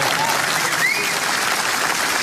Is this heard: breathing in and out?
no